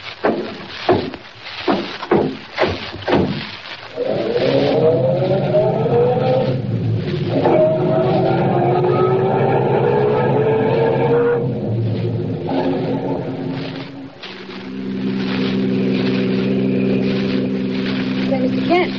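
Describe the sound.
A car drives off at night on the way to town. A few thumps come first, then the engine revs with a rising pitch and settles into a steady, fairly loud drone.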